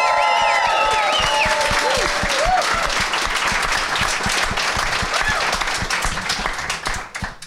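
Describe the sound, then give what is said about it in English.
A studio audience greets a first-time guest with loud, sustained applause and a few whoops early on. The clapping stays dense before thinning out at the end. “let's hear it for first-time guest Max Landis, everybody.”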